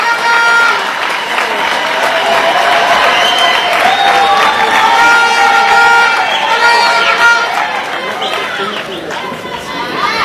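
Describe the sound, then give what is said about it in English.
Vuvuzela horns blow amid a cheering crowd at a South African gathering, steady droning tones layered over continuous crowd noise and clapping that stay loud for the whole stretch before easing slightly at the end. “I like the sound of that vuvuzela.”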